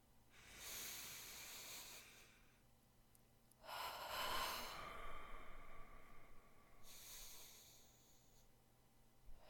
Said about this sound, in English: Take a deep breath for me. I'll breathe with you.